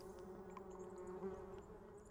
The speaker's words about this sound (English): Just listen, and you'll hear birds, wind in the trees, crickets, bees,